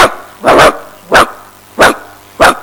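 A dog barking loudly in a few sharp, evenly spaced barks, the first one doubled, with short pauses between them and a faint low hum underneath.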